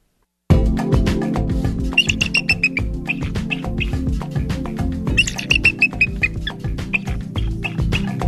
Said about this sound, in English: That's the call of the bald eagle.